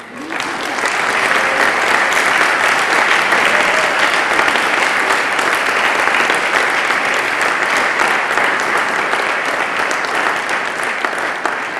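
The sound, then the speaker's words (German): Sustained, loud applause from a conference audience, a dense steady patter of many hands clapping throughout with no gaps, mixed with faint crowd noise. “Die haben einen Beifall verdient.”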